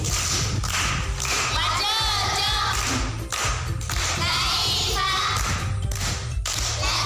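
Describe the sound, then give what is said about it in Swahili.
Applause from pupils at a primary school: rhythmic bursts of clapping recur in a regular pattern, with young voices calling out between and over the claps. “Makofi kwenu.”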